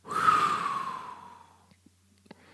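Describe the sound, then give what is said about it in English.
A deep breath blown out during a calming breathing exercise: a long, breathy exhale that is loud at first and fades away over about a second and a half, followed by a few faint clicks. “We take a deep breath in. Then we blow it out.”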